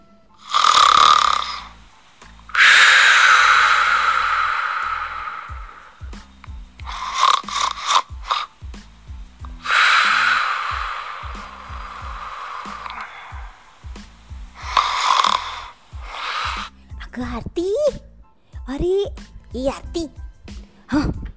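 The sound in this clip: A person snores while asleep, with several loud, rasping snores, some broken into rapid fluttering pulses, between quiet breaths and clicks. A voice speaks near the end.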